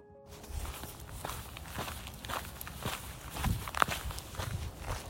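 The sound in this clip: Footsteps on an outdoor walk on a humid morning, as many even steps at an unhurried pace, fairly quiet and steady, with a slightly louder footfall near the end.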